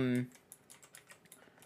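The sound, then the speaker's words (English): Soft, quiet typing on a computer keyboard: a quick run of irregular clicking key taps. “Sorry. One second. I just like was trying to type Hobbs and Shaw and then my brain broke.”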